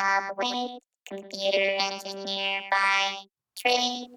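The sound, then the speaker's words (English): A voice run through a vocoder with a sawtooth wave carrier, buzzy and robotic with rich steady harmonics, heard in three phrases separated by short silences. “So my voice, completely filtered through a sawtooth wave, sounds like this.”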